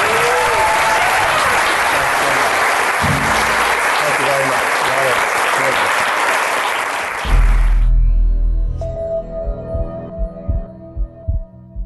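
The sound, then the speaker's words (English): Audience applause at a live recorded event in London: dense, sustained clapping from a crowd for about seven seconds, which then stops abruptly and gives way to a few soft low thumps. “Thank you all for coming. The podcast will be published this weekend. Give it up for Dave Asprey.”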